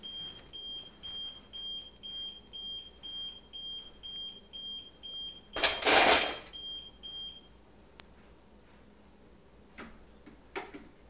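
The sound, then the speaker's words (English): A pager beeps in a rapid, steady series of high, identical tones, about two per second, for roughly seven seconds before stopping. A brief loud burst of noise cuts across the beeps near their end. “You hear that? It stopped. No, that wasn't that. It was Daddy's pager.”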